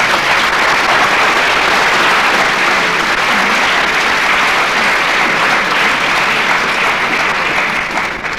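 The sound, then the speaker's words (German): Audience applause at a civic gathering in Freudenstadt, honouring a visiting delegation from China. Many hands clap in a dense, even roar that stays loud the whole way through and only eases slightly at the very end. “Ich denke, dass dies einen besonderen Applaus verdient.”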